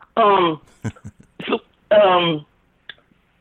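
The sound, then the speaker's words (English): Throat clearing from a man with something stuck in his throat: several short, rasping bursts mixed with a few hummed, voiced sounds. “I'm sorry, man. I got something stuck in my throat.”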